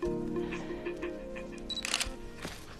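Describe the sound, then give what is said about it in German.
Camera shutter clicks as a photo of a face is taken, a few quick crisp clicks near the end over a steady tonal background hum. “Dann ein Foto vom Gesicht.”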